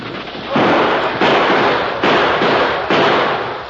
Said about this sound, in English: That's enough. Hold your fire.